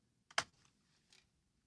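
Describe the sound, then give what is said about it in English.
Faint typing on a computer keyboard: a few sharp key clicks, one stronger than the rest, followed by a short quieter burst of taps and then silence. “I typed in Hal. C-G-E. Come on, fingers. There we go. I typed in Hal.”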